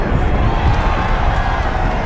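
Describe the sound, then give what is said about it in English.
A group of people cheers at an avalanche rolling down mountains in the distance, a steady, dense wash of voices that holds at an even, loud level throughout without clear separate peaks. “A group cheers a few meters away at an avalanche that can be seen rolling down mountains in the distance.”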